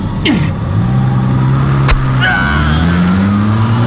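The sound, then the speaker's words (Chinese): A car engine revs hard as the vehicle accelerates, a loud, dense roar whose pitch climbs steadily. A single sharp thump cuts through midway. “油门一催，就将贴在窗外的李玉撞倒在地”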